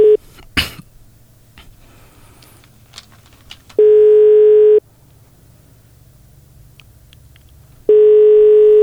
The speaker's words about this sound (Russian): Давайте попробуем на нее дозвониться, задать несколько простых вопросов.